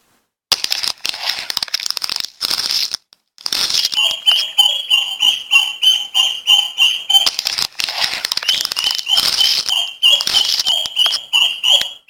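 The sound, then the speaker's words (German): High, thin peeping of six newly hatched yellow chicks breaking out of their eggs: many rapid, bright chirps in a busy, near-continuous stream with brief gaps. “Guck mal, die kleinen schlüpfen. Jetzt aus den Eiern.”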